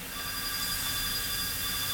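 A telephone rings with a faint, unbroken electronic tone that holds steady for the whole moment, with no voices over it.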